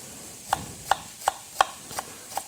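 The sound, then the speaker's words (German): Small shallots are sliced into thin strips in six crisp, evenly spaced cuts. Each cut is a short, sharp knock, with no voices. “Die Zwiebeln oder Schalotten, je nachdem was man da hat. Ich habe jetzt hier kleine Schalotten genommen. Einfach in dünne Streifen schneiden.”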